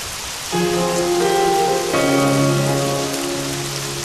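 Steady rain falling on a surface, an even hiss that runs through the whole stretch, with sustained tones layered over it from about the first half second onward.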